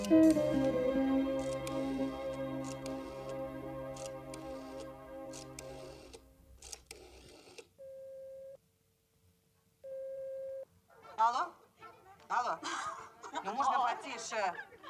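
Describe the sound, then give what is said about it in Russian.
A telephone line tone heard after a number is dialled on a handset: two long, steady mid-pitched beeps separated by a pause. Music plays before them, and voices and light laughter follow. “Она поднимает телефонную трубку и прикладывает к уху. Набирает заветный номер.”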